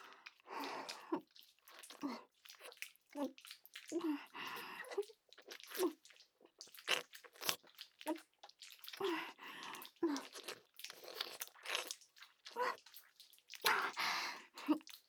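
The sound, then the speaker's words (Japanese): Wet licking sounds of a tongue: many soft, irregular smacks, slurps and drips follow one another closely, moist and close-up, with no voice over them. “いじめちゃった分たっぷり舌でペロペロしてあげる。”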